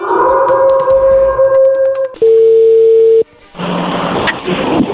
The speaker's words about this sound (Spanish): Bueno, pues vamos a llamarle a Vanessa, vamos a ver qué pasa.